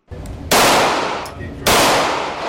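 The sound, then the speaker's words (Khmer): Two loud, sharp gunshots ring out at an outdoor shooting range near Charleston, spaced about a second apart, each a broad crack that tails off into a long fading echo. “លោក Jerome Sokolowski រាយការណ៍ពីទីលានបាញ់កំភ្លើងនៅជិតទីក្រុង Charleston”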